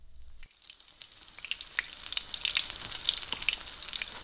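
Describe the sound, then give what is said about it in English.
Hamburger frying in a pan: a steady, bright sizzle with many small pops and crackles that grows denser and a little louder as it goes, with no talking. “First, fry the hamburger.”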